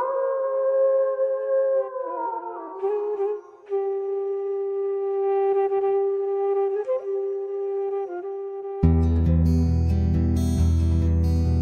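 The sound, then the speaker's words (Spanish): A wolf howling at the full moon, with long sustained tones that waver and fall slightly, several overlapping pitches held for seconds, before a louder, broader sound cuts in near the end. “desde los tiempos de Patas Negras siempre se escucha a un lobo aullando a la luna llena”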